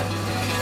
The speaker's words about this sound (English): Concrete mixing.